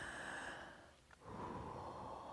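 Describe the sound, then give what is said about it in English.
A deep breath is drawn in and let out: a long, steady rush of air, a short pause, then an equally long exhale. It is faint, with no talk. “I just want us to all take a deep breath in and then let it out.”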